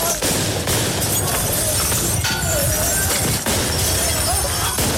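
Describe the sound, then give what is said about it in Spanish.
A street protest in France: a dense, loud crowd roar is broken by repeated sharp cracks, bangs and shattering bursts. Voices are mixed into the noise. “Hoy eso no ha significado que hayan bajado la intensidad de las manifestaciones, porque hoy las calles allí en Francia se escuchan de esta manera.”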